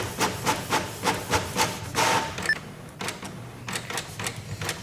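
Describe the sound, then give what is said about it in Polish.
A Canon PIXMA MX925 inkjet printer starts to print, making a quiet, regular series of mechanical clicks and short rubbing pulses, with a brief whirring burst partway through and more soft clicks afterward. “I zacznę się drukowanie.”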